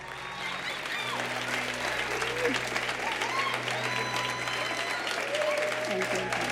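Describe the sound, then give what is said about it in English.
Audience applause welcoming a performer onstage, dense steady clapping with crowd noise that lasts the whole stretch, while a voice speaks over it and a low sustained tone hums underneath. “Warm your hands up. Now put them hands together and give a big shout out”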